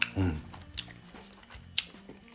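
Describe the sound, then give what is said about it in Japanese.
Chewing of matcha soba noodles dipped in salt: soft, quiet mouth sounds with a few faint clicks, and a brief low hum from the eater near the start. “こういうのねそばの味をそのまま楽しみたいので塩をつけてうん食べてみます”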